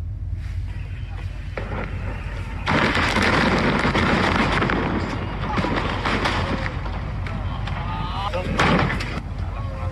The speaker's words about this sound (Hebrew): ואחר כך, ביום חמישי, בהנחייתנו, צה"ל פוצץ את המפקדה של חיזבאללה.